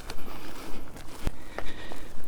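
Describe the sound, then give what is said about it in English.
Footsteps walking through fields at Cobden, a steady series of soft, scuffing steps over grassy ground with one sharp click partway through. “I'm now walking through fields at Cobden, where I've had quite good success with bee orchids in the past.”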